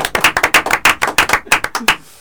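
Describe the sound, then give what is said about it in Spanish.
A small group claps to welcome a guest onto a radio program. Sharp, distinct hand claps come in a quick, slightly uneven run of about a dozen and a half, then stop just before the end. “¡Un aplauso! ¡Arranca el aplauso!”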